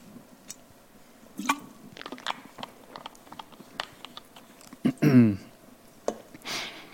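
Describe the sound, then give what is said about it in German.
A person taking a sip of a drink: a few quiet, scattered slurping and mouth clicks, then a short louder gulping sound, with soft faint noises between. “So, ich trinke jetzt einen Schluck”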